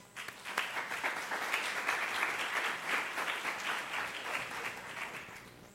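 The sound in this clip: An audience applauds to welcome a speaker. The clapping swells quickly into a steady stream of many hands, fairly soft overall, continuing evenly to the end.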